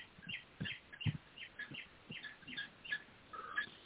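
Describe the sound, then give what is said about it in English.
Faint bird chirping: many short, high tweets in an irregular run, over a low, steady background hiss. “Is that you, your bird chirping or what? Nope. Because I'm hearing a bird chirp or something,”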